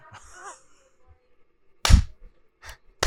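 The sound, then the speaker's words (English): Hands clap in a few sharp, dry smacks, with a loud pair of close claps followed by a softer one and another crisp clap at the end. “That's not the sound of me whipping myself for my sinful ways. That's the sound of me clapping for an excellent joke made by my friend Jesse.”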